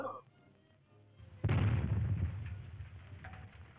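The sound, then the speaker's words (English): A dynamite explosion: after a quiet, low stretch, one sudden loud boom hits partway through, then a rumbling tail slowly fades. “Oh my god, was that dynamite?”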